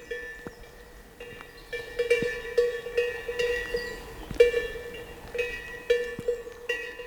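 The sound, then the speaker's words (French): Bells clank irregularly on a herd of livestock at a mountain pass. Many metallic clinks ring out with lingering tones over a soft, steady background, and no voices are heard. “Un troupeau.”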